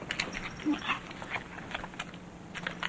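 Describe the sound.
A small dog eats from its dish, making faint, irregular crunching and clicking sounds in an otherwise quiet setting.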